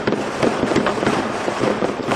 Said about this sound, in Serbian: veliki broj vatrometa i petardi obeležili su poslednje i prve minute 2012. i 2013. godine.